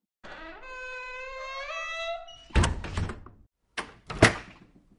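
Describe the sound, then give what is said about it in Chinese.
A door being closed, beginning with a long, rising creak from the hinge, then a few heavy, dull thunks as it shuts. “对，关上门啊。”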